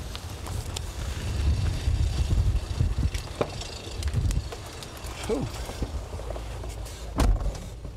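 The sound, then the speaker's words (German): Strong, gusty storm wind at an airport roars against the microphone, a loud, low rumble that swells and ebbs without pause, with a few brief knocks and rattles. “aber bei dem Wind. Die Böen werden immer kräftiger.”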